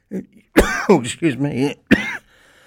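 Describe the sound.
Someone coughs and clears their throat after something went down it: a handful of rough, throaty bursts of uneven length, some with a strained, voiced quality, then quiet.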